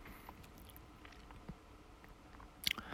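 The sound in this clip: Faint chewing of a corn-flavoured crunchy snack while in bed: soft, sparse crunches and wet mouth clicks, ending in a brief burst of louder crunching.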